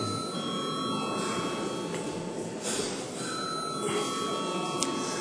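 A bell rings in a parliament chamber to call members to a vote: a steady, high metallic ringing that runs unbroken for the whole clip at an even level.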